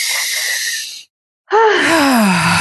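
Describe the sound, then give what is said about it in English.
A deep breath during an emotional tapping exercise: a long, breathy inhale, a brief silence, then a loud voiced sighing exhale that falls in pitch. “Big breath.”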